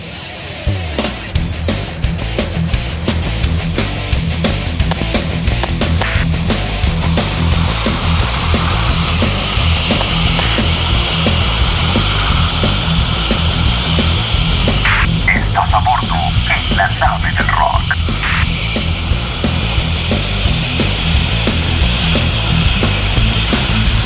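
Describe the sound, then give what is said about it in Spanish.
Airplane takeoff sound effect: a loud, continuous throbbing drone with high whining engine tones running throughout, pulsing at a regular rhythm, with no voices. “190 grados, nave del Rock 001, autorizado despegue, a rock and rolear. Autorizado despegue, nave del Rock 001, muchas gracias Torre Control.”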